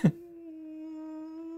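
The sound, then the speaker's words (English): A ghostly moan from a ghost sound-effect recording, like a whining dog: a short click, then a sustained, flat-pitched, hollow tone with soft overtones that drones on evenly. “What is that? Is that a ghoulish ghoul? 4 hours of ghost sound. They sound so constipated.”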